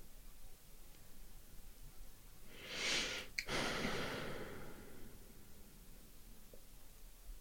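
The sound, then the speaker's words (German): One deep, spontaneous breath, a soft airy rush that swells and fades over roughly a second and a half, set in an otherwise quiet stretch with a steady low hiss. “Gerade als ich in dieses Nachspüren reingegangen bin, da ist nochmal so ein tiefer Atemzug gekommen.”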